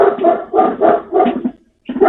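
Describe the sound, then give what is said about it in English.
Dogs bark excitedly in a quick series of sharp, repeated yelps with short gaps between bursts. The bursts are loud, with a brief silence just before the last one. “my dogs are going nuts here”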